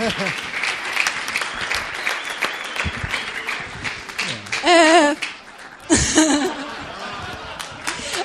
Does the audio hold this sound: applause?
yes